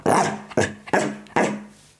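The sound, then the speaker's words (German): A dog growls and barks four times in quick succession, each bark a short, rough burst trailing into a low growl, loud and alone. “Du hast meinen Hund versaut, will ich dir nur mal sagen. Mach ich jetzt mal auf. Toodles, hallo Toodles. Der möchte mit mir reden.”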